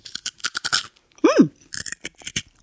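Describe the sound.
A crunchy tomato rusk is bitten and chewed, giving many crisp, dry crackling bursts, broken midway by a brief voiced murmur.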